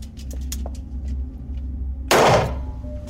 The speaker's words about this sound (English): Several shots are fired at distances from 1 to 18 inches.